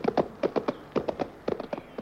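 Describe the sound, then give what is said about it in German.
Hooves of horses galloping in pursuit of a running dog, sounding as a rapid, rhythmic clip-clop of many moderately loud beats that fall in repeating groups of about three, with no talk. “Der Hund jagte wie der Blitz davon und wir auf den Pferden hinterher.”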